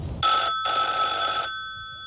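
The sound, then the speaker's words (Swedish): A telephone rings with two bright electronic trills, a short one followed by a longer one, then falls quiet. “Jag ska ringa henne.”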